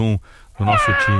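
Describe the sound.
A cat meows in a high, drawn-out cry, heard alongside brief speech.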